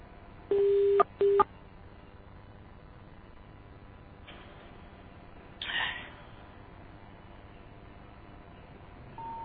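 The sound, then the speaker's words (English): Touch-tone keypad beeps as a telephone number is dialed: two short, steady dual-tone beeps near the start, then a quiet line hiss with a brief soft noise later. “Did you dial the 1? No, I'll try the 1 now. Yeah, try it with the 1.”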